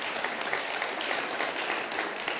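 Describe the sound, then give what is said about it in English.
Congregation applause for family members at a Christmas worship gathering: sustained clapping from a large crowd, dense and even, without letting up across the moment. “give them a hand clap. That's awesome.”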